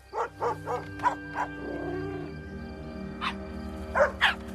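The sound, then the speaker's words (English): A dog barks at a cat from a floating rowboat: a quick series of short, sharp barks, a pause, then a few more barks over a steady, sustained tonal background. “Dog barks at Cat and turns back to the boat.”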